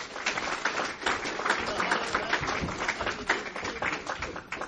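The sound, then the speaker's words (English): Audience applause welcoming a speaker to a talk on doping in sports: dense, sustained clapping that fills the whole stretch at an even, fairly loud level. “I'd like you to put your hands together and welcome Tim Takahashi.”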